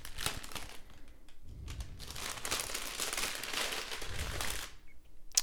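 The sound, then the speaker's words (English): A paper envelope crinkles and rustles as it is opened at an awards ceremony, in dense bursts of crackling with a short pause between them and no voices. “The envelope, please.”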